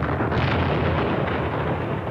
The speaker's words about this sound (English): Bill Tinnen had the job of planting the sticks of dynamite